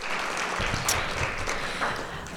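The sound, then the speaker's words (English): Audience applause at a human rights forum, a dense, steady crackle of many hands clapping that stays fairly loud and even across the whole stretch. “let's just give a round of applause to Marilyn.”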